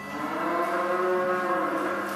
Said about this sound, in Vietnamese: Trang trại nuôi bò sữa này không giống với bất cứ trang trại nào ở vùng Kozaras thuộc miền Tây Bắc của nước Bosnia và Herzegovina.